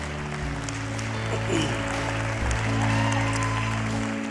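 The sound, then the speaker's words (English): Church audience applauding to welcome families bringing their children for dedication, a steady, even wash of clapping that holds at a constant level throughout, with a low sustained hum underneath. “Come on, put your hands together and welcome them.”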